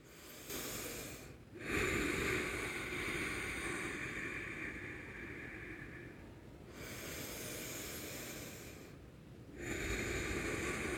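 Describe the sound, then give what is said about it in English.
Slow, deep mindful breaths, drawn in and let out in long airy waves of soft breath noise, a few full cycles separated by brief quiet pauses, fairly faint and with no talking. “with a few deep breaths just for you, just for you and I to do together.”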